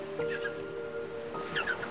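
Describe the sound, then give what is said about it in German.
Dolphins squeak in the sea, with faint high chirping squeaks in two short bursts over a steady wash of water. “In der Ferne erklingt plötzlich ein seltsam vertrautes Quieken und Klickern.”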